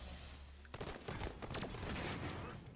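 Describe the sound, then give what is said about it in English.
Gunfire crackles in a multiplayer video game match, faint rapid bursts of shots that run together into a continuous rattle. “Where are you even shooting me from, bro?”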